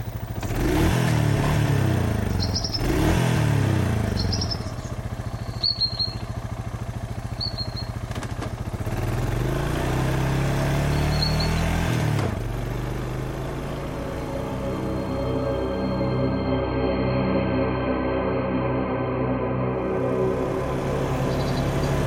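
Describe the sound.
Engine of a car being driven: a steady mid-pitched drone with clatter and a few revving surges early on, then settling into a smoother, even hum.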